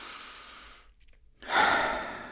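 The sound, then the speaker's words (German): A deep breath drawn in through the nose as a soft, steady rush of air, then a short pause before a louder, breathy exhale out through the mouth. “Jetzt kannst du nochmal einen tiefen Atemzug durch die Nase ein- und durch den Mund ausnehmen.”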